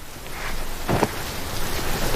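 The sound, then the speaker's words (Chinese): Steady rain falling, a continuous broad hiss at moderate level with one brief louder patter partway through; no voices. “跑什么跑啊，没看见下雨吗？”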